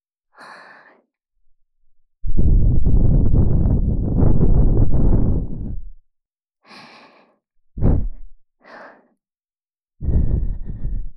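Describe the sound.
Gentle breath blown into the ear during ASMR ear cleaning: soft, airy puffs, with one long sustained exhale among several short ones. No talking.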